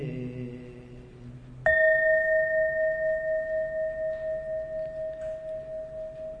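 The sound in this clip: A meditation bell is struck once, its bright strike opening into a long, sustained ring with a softly pulsing tone that fades slowly.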